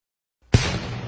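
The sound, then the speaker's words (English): One artillery shot from a 21-gun salute by part of the U.S. Army 101st Artillery Regiment, marking 250 years since the first shot of the American Revolution at Lexington, Massachusetts: a sudden loud boom, then a rolling, decaying rumble. “Reenactors heard this 21-gun salute this morning from part of the U.S. Army 101st Fuel Artillery Regiment.”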